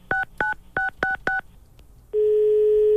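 A touch-tone telephone keypad is dialed with five evenly spaced two-tone beeps, followed after a short pause by a loud, steady continuous line tone.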